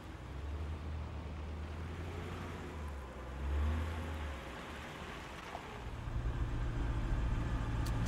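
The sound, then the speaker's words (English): Quiet low rumble of a sedan rolling into a parking lot, a steady engine drone that swells briefly around the middle and grows fuller toward the end. “Joe's sedan rolls into the parking lot.”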